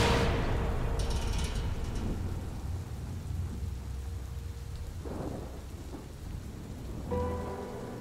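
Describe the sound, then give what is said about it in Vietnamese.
Thunder in a heavy rainstorm: a steady hiss of falling rain beneath deep, rolling low rumbles, strongest at the very start and swelling again near the end, with no voices. “Mấy tiếng sét đùng đoàn vang lên liên tiếp, làm cho ai nấy cũng giật mình.”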